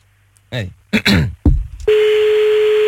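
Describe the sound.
A telephone line tone sounds while a call is being dialed: a steady, unbroken tone holds to the end, after a few short vocal sounds.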